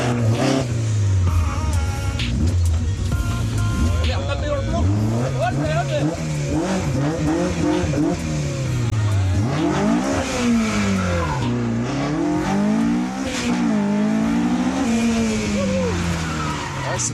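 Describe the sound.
A McLaren sports car accelerates hard through a cone slalom. The engine revs rise and fall in pitch again and again through the turns, with tire squeal and a loud, continuous roar throughout.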